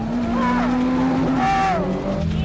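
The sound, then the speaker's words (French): A car speeds and skids with squealing tires as it slides through a controlled drift, a sustained engine drone and rising, wavering tire screech running throughout under excited voices. “Roule droit. Non, pas les dérapages contrôlés.”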